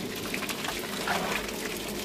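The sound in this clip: Liquid rushing as a brewer mashes in grain with water to make a pale ale in a small brewery shed with a concrete floor and central drain. The sound is a steady, soft, hissing wash of water with no voices.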